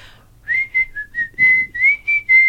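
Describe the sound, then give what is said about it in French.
A person whistles a short family signature tune, a quick run of about eight clear, high notes that hold a fairly level pitch, with brief gaps between them. “Je vous ai dit que je sifflerais à la radio, je vais vous le faire.”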